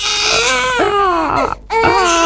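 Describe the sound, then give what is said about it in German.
A baby crying hard in loud, high, sustained wails, broken by one brief pause for breath before the wailing starts again. “Oh je, ein Baby weint im Supermarkt, im Café oder im Zug”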